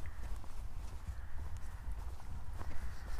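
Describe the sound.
Footsteps of a person walking through a field beside a road near the school in Casterton, after a chilly night. The footfalls are steady and continuous over a constant low rumble, with no voices.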